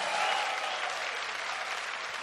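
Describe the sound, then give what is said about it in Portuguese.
A church audience applauding loudly for God during a Portuguese-language Mass sermon. Thick, continuous clapping from many hands holds an even, moderately quiet level throughout, with no voices rising above it. “Quem é perseverante, aplauda o Senhor bem forte.”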